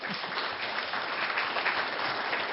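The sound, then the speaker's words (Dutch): Church audience applauding a fundraising result, a soft, even patter of many hands clapping that stays steady and fairly faint throughout. “Nou, dat is toch iets om voor te klappen, ja.”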